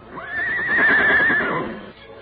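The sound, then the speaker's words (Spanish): A horse neighs: one loud, high whinny that rises sharply, holds a wavering tone, then drops away. It is heard alone, with no talking. “Pues ya le dio este condenado animal por estar relinchando.”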